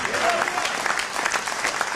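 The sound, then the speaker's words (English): An audience claps hands in loud, steady, ragged applause that runs throughout, with a voice heard briefly near the start. “Ooh, that's just a raggedy hand clap.”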